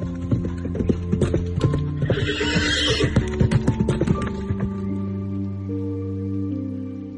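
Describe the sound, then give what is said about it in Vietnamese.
A galloping horse gives a quick run of many sharp hoofbeats, then a long, high, wavering whinny that carries on after the hooves fade. “Trường Sinh cũng cười khúc khích, giật cương thúc ngựa phi nước đại về hướng nam”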